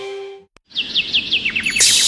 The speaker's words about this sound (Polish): Posłuchaj śpiewu ptaków